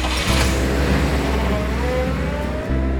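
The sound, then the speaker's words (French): An Alfa Romeo convertible's engine revs in a steady, full roar that holds almost unbroken for three seconds, dipping only briefly near the end before returning. “Amateur de voitures, le poète fou dénommé Blaise acheta un cabriolet Alfa Romeo,”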